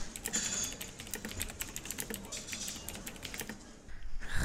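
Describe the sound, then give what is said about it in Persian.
Rapid typing on a laptop keyboard while checking email: a steady run of many crisp, light key clicks in an uneven rhythm, continuing almost throughout before a brief pause near the end. “خب باش که لپتاپ خود رو باز کنم، ایمیل خود رو چک کنم ببینم تازه چی گپ و خبر است.”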